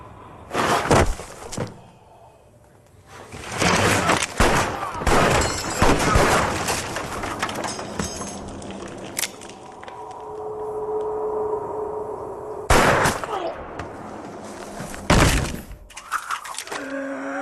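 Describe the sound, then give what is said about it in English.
Gunshots strike ironwork in loud, sharp bursts that come in irregular clusters, separated by quieter stretches with a faint lingering tone. “You're shooting ironwork. Appears to do, yes.”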